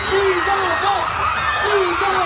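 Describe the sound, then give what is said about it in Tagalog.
A crowd of local fans shouts and cheers along a street during a motorcade in Puerto Princesa City. A steady roar of voices carries through, with higher yells and whoops rising above it. “Umalingaw-ngaw sa kalsada ang sigawan ng mga kapamilyang Palawenyos nang makita ang hari ng aksyon sa ating henerasyon na si Coco Martin”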